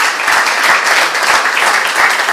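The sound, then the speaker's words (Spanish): Loud, dense applause for the speakers at the close of an event, with many people clapping steadily and evenly throughout. “Demano, sisplau, un aplaudiment pels nostres ponents que han vingut de fora.”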